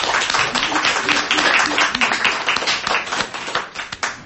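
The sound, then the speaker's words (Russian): An audience applauds after a speaker finishes a talk. Dense, steady clapping holds throughout and thins into fewer, scattered claps near the end. “Это все, что хотел наш спикер сказать. Давайте похлопаем.”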